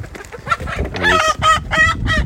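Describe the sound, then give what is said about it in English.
A chicken clucks and squawks while being chased around. A rapid, harsh run of loud, nasal squawks sounds in quick succession, with no voices. “So this is quite a scene that's happening here. Tom Jones, this is the first time I've seen this, is chasing one of the chickens around.”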